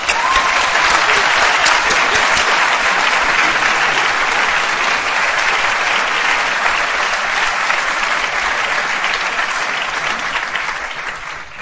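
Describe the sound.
Audience applause fills a lecture theatre to welcome a speaker, a dense, steady wash of many clapping hands that holds loud and even for about eleven seconds before easing slightly at the end.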